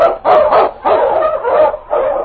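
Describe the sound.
Husky sled dog, an Eskimo lead dog, barking in a run of about five loud, rough barks with short gaps, heard alone without talk.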